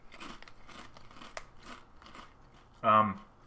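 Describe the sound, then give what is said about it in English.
A single loud crunch as someone bites into a large ham-flavored potato-style chip, arriving near the end after a stretch of quieter background talk. “They smell like potato chips. Like maybe some Utz's. Oh, they're huge. Okay. It is a nice size chip.”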